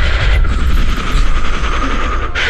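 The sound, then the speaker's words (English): Gunfire strikes a ship in a video game, a loud, rapid run of sharp repeated bursts that keeps going without a break and with no voices. “Listen, son, we're getting shot at! Things are not going well. We need you to keep the ship working.”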